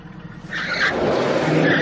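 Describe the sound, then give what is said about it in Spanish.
A car engine roars as the car reverses at high speed toward a petrol pump, fairly quiet for the first half-second, then surging abruptly loud and holding steady to the end. “A gran velocidad, Luis conduce marcha atrás hasta el surtidor de gasolina.”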